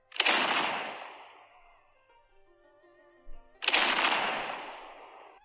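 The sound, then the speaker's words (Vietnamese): Distant cannon fire booms in a martial-arts adventure story: two deep, fairly quiet blasts about three and a half seconds apart. Each bursts sharply and then rumbles away over a second or more, with no voices. “Nơi xa vang lên tiếng pháo ầm ầm”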